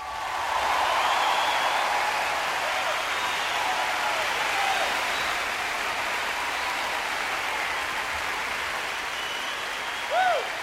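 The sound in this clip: Prolonged applause from a concert audience after a live performance, a broad, even rush of clapping that starts strong and slowly thins.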